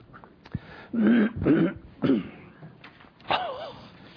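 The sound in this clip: Throat clearing and rough coughs from a preacher during a sermon, coming as several short, voiced, hacking bursts with brief pauses between them, fairly loud over a quiet background.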